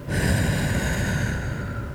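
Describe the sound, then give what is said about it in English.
A long, steady exhale during a paced breathing exercise, a soft airy hiss of breath pushed out evenly for about two seconds without a break. “So now let's do one so you can feel the pacing. So exhale your air out.”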